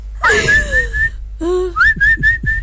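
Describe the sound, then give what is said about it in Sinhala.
A person whistles to call pigeons: one long, loud, sliding whistle, then a pause, then a string of short, sharp whistle notes repeated in quick succession. “පරවියොන්ට whistle ගහලා ඔහොම ගෙන්නන්න පුළුවන්.”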